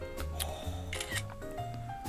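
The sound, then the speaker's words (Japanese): Camera shutter taking a photo, a few short, sharp mechanical clicks over a faint, steady tonal background. “写真撮っちゃう”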